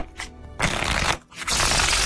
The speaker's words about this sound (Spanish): Déjame sacar mi baraja.